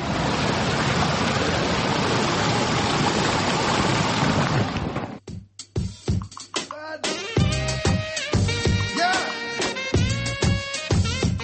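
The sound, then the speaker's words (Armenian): A brook flowing in Yerevan's Lovers' Park rushes steadily as dense, even water noise for about five seconds, then gives way to voices and other sounds. “Երևանի սիրահարների այգին, որ վերաբացվել է Պողոսյան ընտանիքի միջոցներով, իր առաջին ամառն է վայելում, ռոկման համակարգը գործում է, այգում նորից առուն է երգում։”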